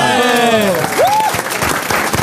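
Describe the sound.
Audience applause greets a correctly pronounced word during a lively panel exchange. A voice is heard at the start, then a burst of clapping mixed with voices.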